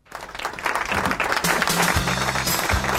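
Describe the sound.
Applause from an audience that swells quickly, then holds dense and loud for about three seconds.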